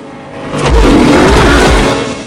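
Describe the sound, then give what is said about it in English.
Engine roar of cars pulling into a boatyard, swelling loud and deep after the first half second, holding as a broad rumble, then easing slightly near the end. “Some cars arrive in the boatyard.”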